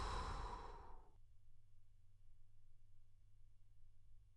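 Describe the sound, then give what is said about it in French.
A deep breath is let out through the mouth as a long, airy, sigh-like exhale lasting about a second. Near-silence with a faint low hum follows. “Et prenez alors trois grandes respirations, inspirant profondément par le nez et soufflant complètement par la bouche.”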